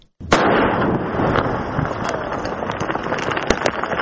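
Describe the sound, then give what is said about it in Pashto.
Landmine explosion set off by police in the Sar Baghal area of Maiwand district, Kandahar: a sudden loud blast after a moment of quiet, followed by a sustained crackling rumble. “دا د کندهار د میوند ولسوالۍ په سر بغل سیمه کې د غماینونو د چاودنې ژغ دی چې تازه د یو پولیس افسر له خوا شاند او په کومو امکاناتو د مځک څخه راایستل شوی.”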